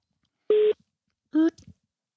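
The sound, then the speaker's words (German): Telephone dialing tones as a number is dialed: two steady, evenly pitched electronic beeps separated by a short pause, followed by a few faint clicks, with no talk. “Und wir wählen mal durch.”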